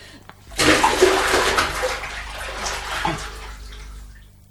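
Water splashes and sloshes in a bathtub as a person is washed. A continuous rushing wash starts abruptly, then gradually eases and thins out toward the end.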